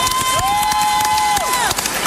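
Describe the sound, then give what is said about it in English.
An audience at an awards show for new artist of the year applauds and cheers. Dense clapping and crowd noise fill the whole two seconds, and a sustained high whistle-like tone bends down and back up over it. “I think they deserve a round of applause.”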